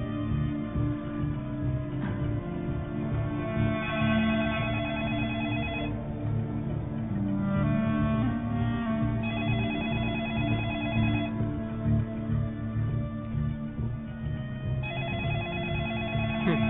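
An outgoing phone call rings and goes unanswered, with repeated ring bursts separated by short gaps. The sound is thin and band-limited, like a telephone line, at a steady, moderate level with no talk.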